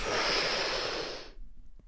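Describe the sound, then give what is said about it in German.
A deep, breathy inhalation taken before holding the breath during a guided breathing exercise. It lasts just over a second and then stops abruptly into near silence. “Und jetzt spätestens tief einatmen”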